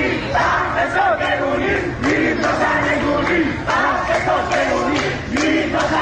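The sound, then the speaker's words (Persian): A crowd chants at the January street protests in Iranian cities. Many voices shout rhythmic, repeated slogans in loud, steady waves throughout. “تظاهرات اعتراضی دیماه در شهرهای مختلف ایران، تظاهراتی که به مرور گسترده شد.”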